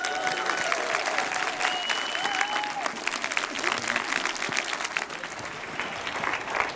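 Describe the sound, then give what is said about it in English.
A church audience at Windsor Christian Fellowship claps to welcome its pastor. The applause is sustained and lively, with cheers and whoops early on, and thins slightly toward the end. “Please put your hands together and welcome Pastor Howie.”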